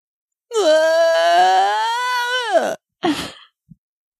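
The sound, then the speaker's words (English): A voice imitates a spirit wailing as it is summoned: one long, sustained, tonal moan that wavers and then slides down in pitch at the end, followed by a short breathy exhale and a tiny click. “Cody's spirit comes wailing into the space.”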